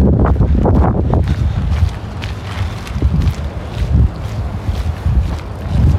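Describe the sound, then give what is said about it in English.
Wind blows outdoors on a mild day, buffeting the microphone with a deep, uneven rumble that surges and eases in gusts, loud and unbroken for several seconds. “Not a bad day, bit of wind.”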